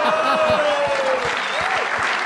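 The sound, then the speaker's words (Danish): Audience applause follows a joke on a Danish comedy show, a steady wash of clapping with some tonal vocal sounds over it. “Altså, det var så god en joke, at folk fra Aarhus klappede det.”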